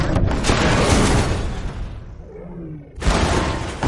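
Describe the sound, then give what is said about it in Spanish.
A spaceship crashes into a huge structure and rebounds against other buildings in a science-fiction film scene: a dense, loud, roaring crash that briefly thins out, then a second sudden, heavy impact burst. “pierde definitivamente el control de la nave y cae en picado golpeando una enorme estructura y rebotando contra otras edificaciones.”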